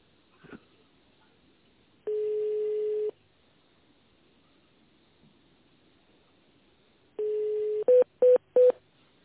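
Telephone tones sound while a call is transferred: a steady mid-pitched tone of about a second, a long quiet gap, then a shorter tone followed by three quick, slightly higher beeps.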